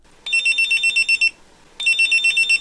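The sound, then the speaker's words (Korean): A pager beeps in rapid trains of high, piercing electronic pulses: one burst of quick beeps, a brief silence, then a second burst. “우와! 삐삐다! 이야, 당신 끝내주는데요? 이야, 삐삐도 다 있고.”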